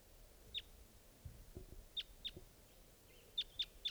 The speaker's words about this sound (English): Wild bird.